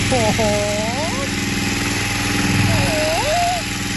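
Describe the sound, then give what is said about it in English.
A 1965 Honda generator runs with a steady, dense engine drone that fills the whole clip, and a voice sounds over it throughout. “It's your little baby Honda generator. It's my little Honda. I won the generator. And this thing is from 1965, right?”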